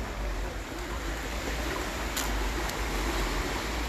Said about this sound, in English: It's the sound of the waves.